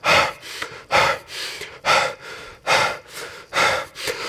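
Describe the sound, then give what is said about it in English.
Heavy panting from a person acting out catching their breath during a panic attack: about five rapid cycles of loud, harsh breaths, each followed by a softer one, with no talking. “just start pacing around the Target parking lot, just trying to catch my breath.”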